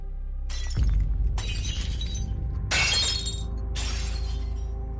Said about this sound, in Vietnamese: Bát đĩa theo đó mà rơi loảng xoảng.